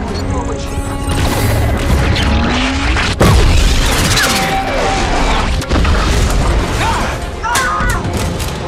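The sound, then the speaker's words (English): Heavy booming blasts and crashes as a starship is hit by weapons fire, with dense rumbling and mechanical clatter throughout and two sharp, loud impacts standing out. “So they're getting blasted pretty bad here to start with.”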